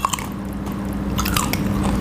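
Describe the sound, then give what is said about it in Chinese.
A bite into firm cooked paddlefish cartilage gives a few short crisp crunches near the start, followed by soft, squishy chewing noise that continues to the end. “就从那个软骨那边咬一口。”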